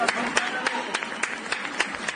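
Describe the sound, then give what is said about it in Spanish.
People in Spain clapping from their windows and balconies in a steady, regular beat of sharp claps that repeats evenly throughout. “Son las 8 en punto de la tarde, las 7 en Canarias. España sale a sus ventanas, a sus balcones para aplaudir.”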